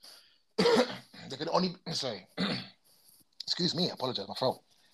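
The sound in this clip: Throat clearing and coughing: a few rough, raspy bursts of throat clearing, fairly loud and close together, with short gaps between them.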